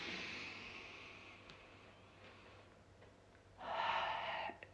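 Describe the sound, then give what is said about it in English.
A person takes a deep breath in and out, a soft, airy, drawn-out breath that swells into a louder rush of air near the end, faint overall. “And one more time, deep breath.”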